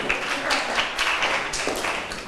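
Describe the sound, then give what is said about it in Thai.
Scattered clapping from students in a classroom for a group that has just presented. The claps are light, sparse and uneven rather than a full round of applause. “ขอบคุณกลุ่มที่3ปรบมือให้เพื่อนหน่อยค่ะ”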